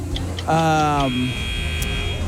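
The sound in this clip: A single quiz-game buzzer sounds during a radio quiz, a low, rasping electric tone lasting about half a second that cuts off abruptly over a faint background hum.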